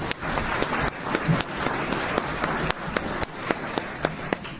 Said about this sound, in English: And let's give a big, big hand again.